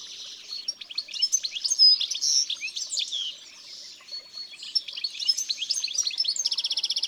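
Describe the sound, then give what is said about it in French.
A flock of European goldfinches sings and twitters in dense, overlapping chatter. Many quick, bright, high chirps and trills run continuously, dip briefly in the middle, then end in a rapid run of evenly repeated notes. No voices. “J'en vois un autre, là. Ça m'étonne pas. Les chardonnerets sont souvent en bande. On dirait qu'ils discutent.”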